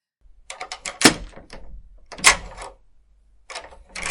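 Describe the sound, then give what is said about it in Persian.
A stuck drawer being yanked and jerked without opening: irregular bursts of sharp knocking and rattling jolts, with short quiet gaps between the tugs and no talk. “بذار الان تو کشو درشون بیارم”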